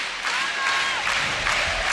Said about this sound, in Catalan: S'anima el públic.